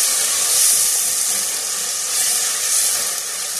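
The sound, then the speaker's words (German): Onions sweating in a pan give off a steady, hissing sizzle, continuous and fairly loud with small swells, and no talk over it. “Dann kann man ein bisschen abtropfen, während die Zwiebeln anschwitzen.”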